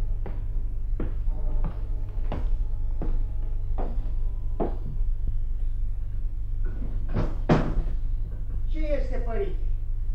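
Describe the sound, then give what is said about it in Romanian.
A slow, regular series of sharp knocks as a wandering monk raps on a door, each blow a short dull thud over a steady low hum, with a few fainter clatters afterward. “Tată, bate cineva.”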